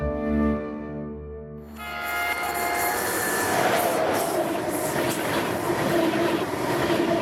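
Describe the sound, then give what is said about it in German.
An ICE high-speed train runs with a loud, steady rolling roar and thin metallic wheel squeal that rises in after a quieter tonal opening and stays continuous to the end. “Mit dem ICE.”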